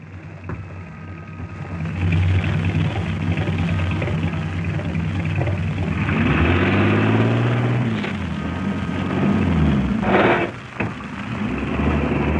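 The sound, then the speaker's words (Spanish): A bus pulls up and stops, its engine giving a steady low rumble with a tonal whine that shifts in pitch midway, followed by a short burst of hiss near the end. “Un bus se detiene ante ella.”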